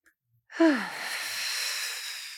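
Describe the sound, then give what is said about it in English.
A deep breath taken during a guided meditation: one long, airy breath begins with a brief falling voiced tone, then continues as a steady, fairly loud rush of air for about two seconds. “And so let's do the three deep breaths. The first breath, inhale.”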